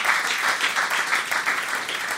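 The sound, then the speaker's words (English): Audience applause at a live comedy conversation about race and violence: dense clapping from a crowd, steady and fairly loud, with a slight pulsing swell in level throughout. “you can clap for that.”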